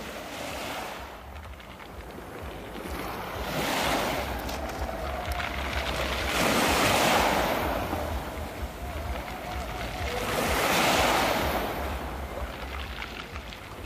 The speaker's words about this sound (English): and the water coming up onto a pebble beach, the water running down through the pebbles, and the pebbles falling down over themselves.